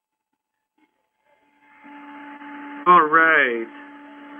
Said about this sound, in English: I think that sound is probably like a computer fan.